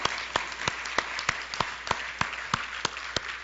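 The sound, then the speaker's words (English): Applause breaks out from a church audience at a Saturday evening service. Distinct, evenly spaced claps repeat steadily throughout over a low hiss, as if from a small group. “Let's give a hand for that one person who accepted the Lord this evening.”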